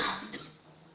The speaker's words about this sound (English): I'll cough to that.